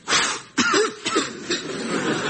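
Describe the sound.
Several people coughing and clearing their throats after blowing the dust off an old parcel found on top of a coffee machine; a few rough, fairly loud bursts come in quick succession with no speech.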